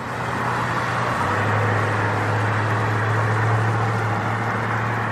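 A police car pulling around gives off a steady, continuous engine rumble with a low droning hum. The sound stays even and fairly loud, with no siren and no voices.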